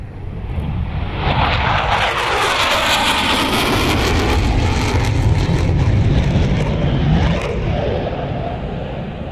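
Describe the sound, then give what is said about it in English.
Military aircraft at Exercise Pitch Black in Darwin produce a loud, continuous jet-engine roar. The dense, broad sound holds steady for the whole clip without a break. “Exercise Pitch Black is a noisy affair. Military aircraft from all over the world and those who fly them have descended on Darwin for just over a fortnight of drills across the Top End.”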